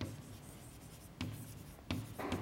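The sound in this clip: A lecturer writing on a board, with faint, dry scratching strokes and a few short, firmer bursts of marker or chalk contact over a soft background.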